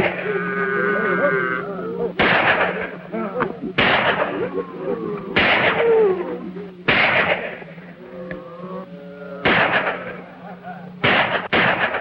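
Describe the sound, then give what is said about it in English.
Rifle gunfire kept up from inside a cabin: several sharp, cracking shots spaced a second or two apart, each with a short ringing tail, heard under a man's steady narration. “The three men dismount, then steal away. The gunfire is kept up from within the cabin.”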